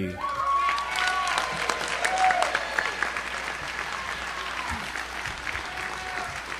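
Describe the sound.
Applause from an audience welcoming the second speaker, a recovered alcoholic, to a recovery talk: steady, dense clapping that carries on throughout and eases slightly toward the end.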